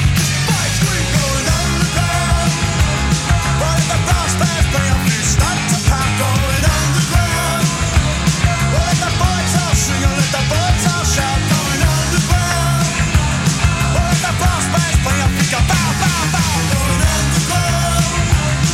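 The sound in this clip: A rock song plays on the radio, a loud, full-band mix with driving drums and guitars that holds a steady, energetic beat without a break for the whole stretch.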